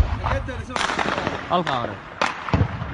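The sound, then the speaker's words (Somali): Gunfire from armed civilians shooting at troops in a city fighting, with several sharp, sudden cracks cutting through excited voices talking over the shots. “waxa la arkayaa dad shacab oo hubaysan isla markaasina gidaarada isku nabaya iyagoo rasaas u sayraya dhanka ciidanka maamulka Soomaaliland”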